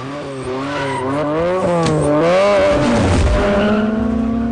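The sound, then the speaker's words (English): A car skidding into a U-turn, tires squealing in a wavering, bending tone over a revving engine that swells louder and then settles into a steady, pulsing whine. “Leon skids into a U-turn.”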